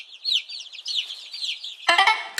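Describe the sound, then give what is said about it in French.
A hen clucks in a quick run of high, warbling notes, then breaks into a harsher, louder, buzzing squawk at the end. “Ah tiens, en parlant d'œuf, voici la poule.”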